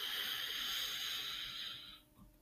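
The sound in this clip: A slow, deep inhale during a guided relaxation exercise, heard alone as a soft, steady, airy hiss that lasts about two seconds before cutting off into quiet.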